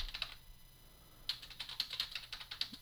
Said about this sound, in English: I typed Spanish correctly.